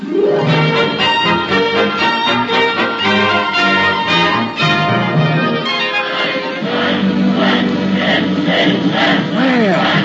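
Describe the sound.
A crowd cheers a welcome in a radio drama, a loud, continuous roar of shouting and cheering voices that holds steady for about ten seconds without a break.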